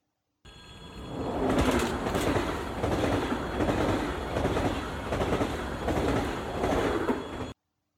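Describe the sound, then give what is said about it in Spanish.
A train running on rails gives a loud, steady rumble with a regular clickety-clack rhythm from the wheels. It starts abruptly and cuts off sharply at the end. “Imagínate un tren. ¿Un tren?, te preguntarás. Sí, un tren”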